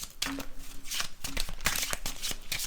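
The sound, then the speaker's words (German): A deck of question cards being shuffled, a rapid, dense flutter of papery riffles and slaps that runs steadily through the whole stretch with no talk over it. “Du kannst die hier Soll nehmen, ich du kannst alle mischen? Such dir aus, was du willst. Gut, dann mische ich mal durch und dann kann ich ganz spontan eine fallen lassen.”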